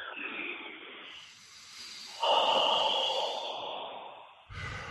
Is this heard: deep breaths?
yes